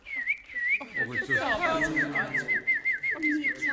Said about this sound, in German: Ich kann die Vögel nachmachen. Jetzt bin ich eine Amsel.